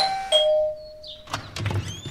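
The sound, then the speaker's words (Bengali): A doorbell rings with a bright two-note chime, the first tone sustaining as the second strikes, then fading into some soft clattering noise. “এমন সময় calling bell.”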